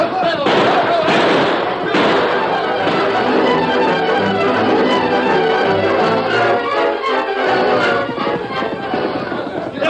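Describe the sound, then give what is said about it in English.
Rapid gunshots crack through a gunfight on a frontier trail, dense overlapping bursts of loud sharp reports fired continuously, mixed with shouting voices and commotion throughout. “They're shooting up ahead.”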